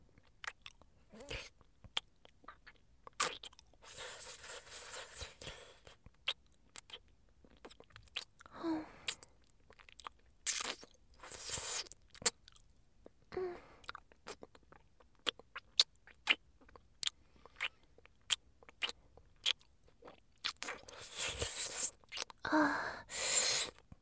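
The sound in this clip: Eating with crunching and chewing: many sharp, crisp bites and moist chews in an irregular rhythm, fairly close and clear, with brief quiet gaps between mouthfuls.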